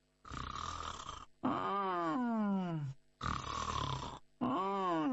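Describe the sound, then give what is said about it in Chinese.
A storyteller's voice imitates the steady, even snoring of a sleeping character: four drawn-out, rasping snores separated by short pauses, two of them sliding downward in pitch, loud and alone. “在那儿啊睡着了。小呼噜打得可匀实”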